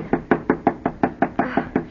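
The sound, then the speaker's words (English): Bare knuckles knock on a door in an even run of eleven sharp raps, steady in rhythm and moderate in loudness, with no voices. “Knock harder. I can't. It hurts my knuckles.”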